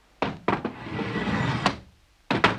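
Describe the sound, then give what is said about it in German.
Metal door bolts are drawn open: a few sharp clacks with a scraping slide between them, then two more quick clacks at the end. “Die Riegel. Eins, zwei.”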